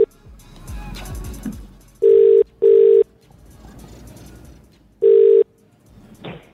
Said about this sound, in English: We are dialing.